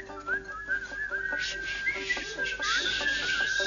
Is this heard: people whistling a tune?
yes